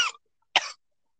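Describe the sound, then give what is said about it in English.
A person gives two sharp coughs separated by a short silence. The second cough is longer and more throaty, with a rough, scratchy edge. “Coughing.”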